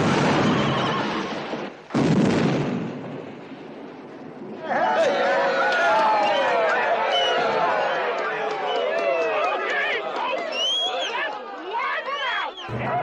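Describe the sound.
Horses whinny and neigh amid explosions in a film battle scene in a town. High, wavering calls rise repeatedly over a dense, continuous crowd commotion and running, after a loud broad burst early on.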